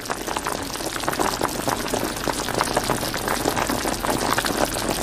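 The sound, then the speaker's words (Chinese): Pork slices stir-fry over high heat in rendered lard, giving a dense, steady sizzle with busy crackling and bubbling that runs unbroken from start to finish, with no voices. “猛火不停翻炒半个小时左右，肉片逐渐被澄清透亮的猪油慢慢浸没。”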